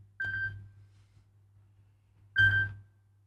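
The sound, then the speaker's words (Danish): A telephone ringing: two short, bright tonal bursts with a long silent gap between them, over a steady low hum, with no voices. “Det ringer, hør vem kan det være?”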